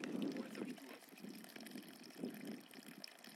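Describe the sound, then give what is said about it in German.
Water trickles out of a field in a quiet outdoor spot, a faint, soft gurgling flow with a few slightly stronger swells. “Oh, hier fließt was aus dem Feld raus. Vielleicht können wir hier so ein bisschen ASMR-mäßig ähm, ein bisschen was aufnehmen.”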